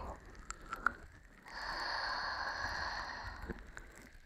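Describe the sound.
A slow breath drawn in through the nose during a guided breathing exercise: a faint, steady, airy hiss lasting about two seconds, with a few soft clicks before it.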